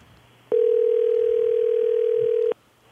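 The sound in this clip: A telephone ringback tone heard while a call is placed: one steady, mid-pitched tone lasting about two seconds over faint hiss, starting and stopping abruptly.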